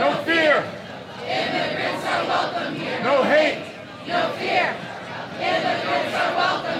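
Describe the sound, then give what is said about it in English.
Protesters at Dulles International Airport chanting in unison against a ban on entry from several majority Muslim countries, a loud crowd repeating a rhythmic slogan in rising and falling waves of voices. “That's the sound of crowds protesting at Dulles International Airport shortly after former President Trump barred citizens of several majority Muslim countries from entering the United States.”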